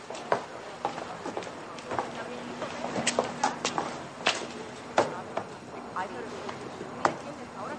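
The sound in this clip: Footsteps in a mannered, affected walking gait: a series of sharp, unevenly spaced steps, some louder and some softer, spread across several seconds over a quiet background.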